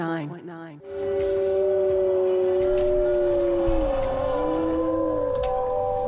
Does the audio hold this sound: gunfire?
no